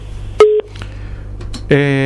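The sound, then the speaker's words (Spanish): Call-waiting beep on a phone line: one short, steady electronic tone over faint line hiss, followed by brief tonal blips, then a voice starts near the end. “Entró la llamada en espera. Esto es llamada en espera, ¿verdad?”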